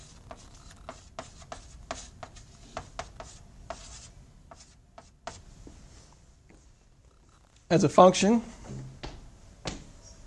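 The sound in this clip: Chalk or marker writing an equation on a board: many short, crisp taps and scratchy strokes in an uneven rhythm, with a louder, denser burst of scraping near the end.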